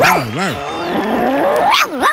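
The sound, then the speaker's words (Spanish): A child's voice imitates a dog barking, giving a few short, wavering, yelp-like barks at the start and again near the end, moderately loud and alone. “¿Sabes cómo hace un perro? ¿Cómo? ¿Qué hace?”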